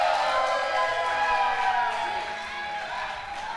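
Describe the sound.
A live audience cheers and whoops as the final guest is welcomed onto the stage, a dense, loud wash of crowd noise that eases off slightly toward the end.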